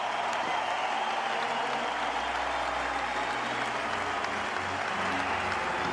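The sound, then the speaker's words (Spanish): An audience in Madrid applauds tennis player Rafael Nadal. Dense, unbroken clapping holds at a steady level for the whole stretch. “¡Hasta siempre, Rafa! ¡Decirle adiós, Madrid! ¡Aplaudidle a Rafael Nadal!”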